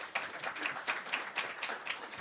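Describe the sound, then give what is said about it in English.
An audience applauds three people who worked on a video: dense, continuous clapping with a faint regular pulse running through it. “I hope you will, before you even see it, join me in giving them applause.”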